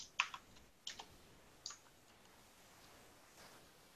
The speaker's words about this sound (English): Would help if I could type.